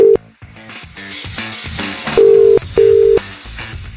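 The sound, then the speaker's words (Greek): Telephone ringing tone heard while calling someone: a clipped steady beep at the start, then two short mid-pitched tones near the end, all set over louder background music. “Πάρε την Λουκία πάλι. Ναι, πάρε.”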